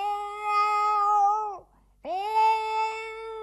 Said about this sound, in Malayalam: ഇവിടുത്തെ ഒരു പൂച്ചയാ.